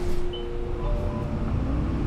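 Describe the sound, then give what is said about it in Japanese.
A bus pulling away from a stop gives a steady, loud low engine rumble with faint whining tones above it, holding level throughout with no voices. “発車します。ご注意ください。”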